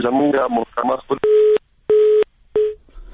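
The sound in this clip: Telephone tones sound while a dropped call is redialed: three steady, mid-pitched beeps come in an even sequence right after a few seconds of talk.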